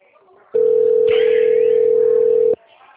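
A telephone ringback tone on an outgoing call: a single steady, loud hum-like tone held for about two seconds before cutting off abruptly, over faint background noise.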